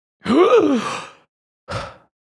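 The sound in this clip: Fake, exaggerated gasping: a long voiced gasp whose pitch rises and then falls, followed after a short pause by a second, briefer gasp. Both are moderately loud and stand alone without talk.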